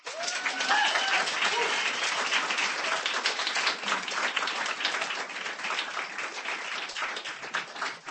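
An audience at a reading breaks into sustained applause for a performer, dense steady clapping that swells quickly, holds for several seconds and then thins slightly toward the end.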